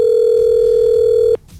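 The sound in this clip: A single steady ringing tone on a telephone line while a radio listener is being called, holding an even mid pitch for over a second before cutting off abruptly into faint line noise.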